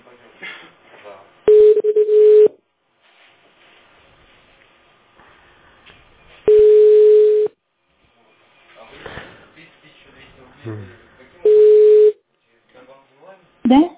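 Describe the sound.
Telephone ringback tone during an outgoing call: three steady, loud one-second beeps spaced about five seconds apart, with faint murmuring talk and line noise in the gaps.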